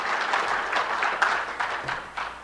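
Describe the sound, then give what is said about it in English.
Applause from an audience during a sermon, steady dense clapping that holds at an even, moderate level for the whole stretch with no voices on top. “that should get an applause”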